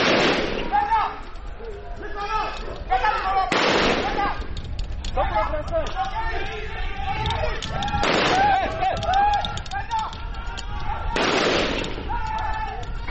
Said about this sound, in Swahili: Jeshi la Jamhuri ya Kidemokrasia ya Kongo FARDC la pambana nao kwa risasi za moto.